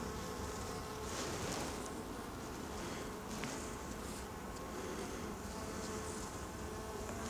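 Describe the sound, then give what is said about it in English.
Honeybees buzz densely over a hive frame lifted from the outside of a box, the frame crowded with bees and drones and holding capped honey and pollen. The drone is steady and continuous throughout, with no talking. “The frame on the outside of the box, covered with bees.”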